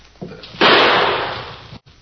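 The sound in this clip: A single gunshot fired at a thrown stone: a sudden sharp blast that swells into a loud, harsh roar, fades over about a second, then cuts off abruptly.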